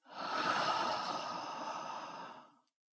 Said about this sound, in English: Let's draw a deep breath in through the nose and out from the mouth.